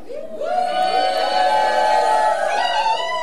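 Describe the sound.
Live festival crowd at Méaudre in the Vercors cheering loudly. Several voices whoop and shout together, their pitches sliding up and down over a sustained roar of cheering.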